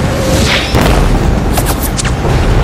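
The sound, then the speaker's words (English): Heavy booming flak from anti-aircraft fire around the battleship Yamato during a diving air attack, a loud, continuous rumbling barrage punctuated by several sharper bursts in quick succession. “With the whole plane shaking, propellers screeching, jolted by booming flak, he plummets from the heavens”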